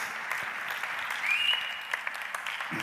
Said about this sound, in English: Could I have one to come and help me? Yeah, yes, you volunteer, you smile. Yes, you. Congratulations, you're on Papa God's most wanted list. Let's give him a good hand.